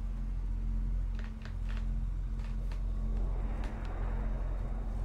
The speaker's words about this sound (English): Wait, is this moving the big bridge outside? Yes, the wheel turns the bridge, and the bridge aligns to the different realm towers on the lake outside.